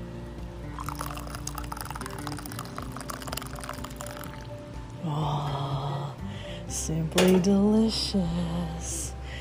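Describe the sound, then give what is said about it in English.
Nescafé coffee being poured, a steady hissing trickle for about five seconds, followed by a person speaking briefly over fainter liquid sounds. “Je t'aime beaucoup le café, je t'aime beaucoup Nescafé. This is the sound of heaven, my friends.”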